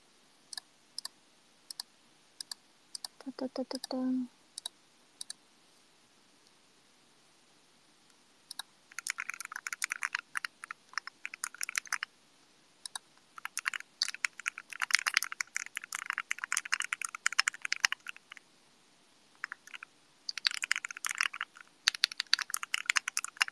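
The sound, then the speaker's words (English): Typing on a fully assembled D65 keyboard: quiet, quick key clicks come in bursts with short pauses between them, after scattered single taps in the first few seconds. “And then I'm looking at this fully assembled D65 keyboard that looks really nice.”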